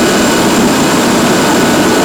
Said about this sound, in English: Most of the staff at the Thursday Island Ambulance Station are trained to fly on a rescue helicopter.